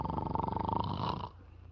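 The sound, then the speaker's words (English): A single rough, buzzy snore that rasps loudly for about a second and then drops off into quiet breathing noise. “must you start snoring as soon as you close your eyes?”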